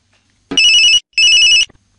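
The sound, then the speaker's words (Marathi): A telephone rings with an incoming call: two bright electronic trilling bursts, each about half a second long, separated by a short gap. “बघूयात आजच्या कार्यक्रमात कोणाचा पहिला phone येते।”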